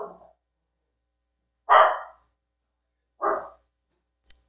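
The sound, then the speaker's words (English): A dog gives a few loud single barks, spaced well apart with silence between them. “Sorry about the dog.”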